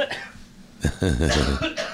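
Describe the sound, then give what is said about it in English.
Coughing from someone who feels ill: a few harsh, rough bursts run into throaty, voiced rasps. “Jimmy, I think I got something, that's for sure. I'm coughing it up”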